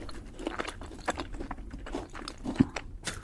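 Someone chews a homemade chocolate chip caramel cookie, making quiet, irregular crunching and smacking bites. Many small crunches follow one another in a steady run, with one sharper crunch near the end.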